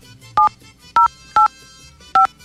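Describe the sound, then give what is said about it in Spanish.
Telephone keypad dialing tones: four short, loud electronic beeps at uneven intervals, each a steady two-tone chord with no voices. “ahí está marcando ya”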